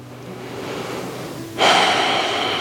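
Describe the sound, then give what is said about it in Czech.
Calm, natural breathing in and out during a guided breathing exercise: soft, airy breath noise without voices that turns noticeably louder and brighter partway through. “Pár nádechů, výdechů. Úplně přirozeně, bez žádné snahy.”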